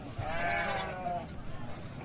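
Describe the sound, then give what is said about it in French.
A sheep gives one long, wavering bleat at a livestock market in Bella, in the Dosso region, ahead of Tabaski, lasting about a second over a low, steady background murmur of market noise. “dans la région de Dosso, s'est rendue le week-end dernier sur le marché de bétail de Bella. Les moutons y sont”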